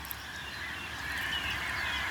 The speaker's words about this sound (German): ich höre einen Klangteppich der Amseln in der Landschaft